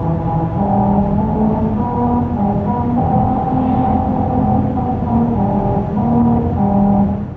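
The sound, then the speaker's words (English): Droning tire tones ring out as a car drives over musical grooves cut into highway pavement in Lancaster, California, a Honda promotion. Steady loud humming notes shift pitch in a wobbly tune throughout, with no talk. “That's the sound of a musical stretch of highway in Lancaster, California. As part of a promotion for Honda, special grooves were cut into the pavement that cause these notes to ring out as you drive over them.”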